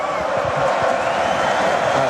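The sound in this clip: An audience at a live event cheers and shouts as a performer tries to say good evening, a dense, steady, loud roar of crowd noise that holds through the whole stretch.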